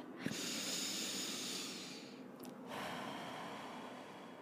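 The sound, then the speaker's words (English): A deep breath, in and out: a slow, airy inhale lasting a couple of seconds, a short pause, then a long, soft exhale trailing away; no speech. “I just want you to take this moment and just take a deep breath.”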